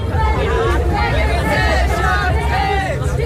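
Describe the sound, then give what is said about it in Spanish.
A street protest crowd in Berlin demonstrates against rising housing prices. Dense, overlapping voices and crowd noise hold at a steady, fairly loud level throughout. “Este es el sonido de una de las recientes protestas en Berlín por el aumento del precio de la vivienda”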